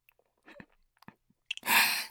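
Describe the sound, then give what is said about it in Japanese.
Chewing on something hard: a few scattered small clicks and crunches, then a loud, sustained crunching burst at the end. “噛んでいいですかね。噛みます。 硬い。”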